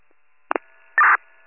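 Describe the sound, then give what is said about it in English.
Telephone tones after a call disconnects: two quick blips, then a brief steady electronic beep and a short final blip, loud and clean with no voices. “Phone disconnected.”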